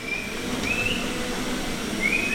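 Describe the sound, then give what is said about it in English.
Short high whistles from people coaxing black and white dairy cows into milking stalls in a milking parlor on a Colorado dairy farm. A few brief, piercing tones stand out over a steady background hum. “She and 2 of her employees whistle at the black and white cows, coaxing them into the stalls.”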